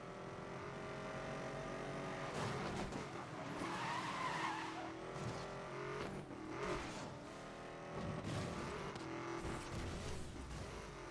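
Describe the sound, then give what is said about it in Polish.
Engine roar and tire screech of a Chevrolet Corvette C6 ZR1 skidding in a racing video game, a steady, fairly quiet stretch of continuous revving and squealing with no pauses. “Wybór padł na Chevroleta Corvette C6 ZR1. Amerykańska moc, ale podana z europejskim smakiem.”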